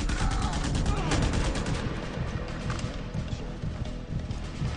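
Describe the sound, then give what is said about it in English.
Gunfire in a video game where the player faces a shotgun-wielding enemy. Many rapid, punchy shots crackle over a continuous rumble, forming a busy, unbroken barrage. “oh, he's got a shotgun.”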